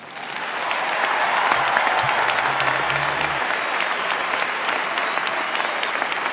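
Audience applause welcomes Governor Mitt Romney. Dense, steady clapping rises quickly and holds at an even level throughout, with a faint low hum briefly underneath.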